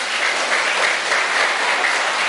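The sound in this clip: Loud, sustained applause from a crowd of children at a Buddhist retreat, a dense, even wash of clapping that holds steady for the whole moment without voices.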